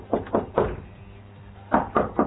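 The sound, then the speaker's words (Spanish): Knocking on a door during a power outage, two sets of three firm, dull raps separated by a short pause. “la puerta a ver qué pasó con la energía en Sarmiento. A ver, dale, a ver, golpea a ver si atiende a alguien.”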